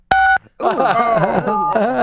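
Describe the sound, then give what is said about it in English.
A telephone keypad tone from an accidental pocket dial: one short, steady dual-pitched beep at the start, followed after a brief gap by a voice-like sound over the line. “Somebody's butt dialing.”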